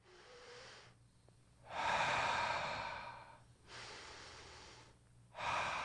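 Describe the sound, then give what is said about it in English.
Collective breathing of an audience during a sermon, many people drawing breath together; soft, airy rushing in a few long swells separated by brief quiet, fairly faint overall. “What did every one of you do just now? Took a breath.”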